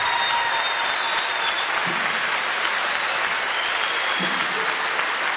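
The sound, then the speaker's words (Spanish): An audience applauds three performers with a steady, loud wash of clapping that holds at an even level from start to finish. “Tato Bolognini y Gastón Puente, otro aplauso para estos tres.”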